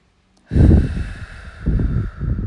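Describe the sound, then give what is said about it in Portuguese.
Deep breaths drawn in through the nose and let out through the mouth during a guided meditation: a few slow, airy, rushing breaths that swell and fade over a soft, steady musical drone. “Soltando pela boca. Faça isso por cinco vezes. Respire profundamente pelo nariz.”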